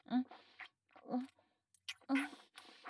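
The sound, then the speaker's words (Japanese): Someone eating and chewing food, heard as a few separate bursts of crunchy chewing with short quiet gaps between them. “それじゃ、いただきます。”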